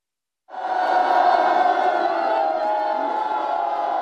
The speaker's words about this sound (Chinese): 村民们聚拢在路旁，手捧洁白的哈达，欢呼着向总书记问好。